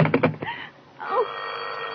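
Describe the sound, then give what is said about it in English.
An old telephone bell rings in a short burst of rapid rattling strikes, then gives way to a quieter sustained tone. “Oh, who's trying to call me?”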